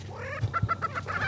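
Clucking calls from football-shaped male lek birds with striped plumage and bulging orange neck air sacs displaying on a patch of high ground, a quick run of short notes over a low steady hum.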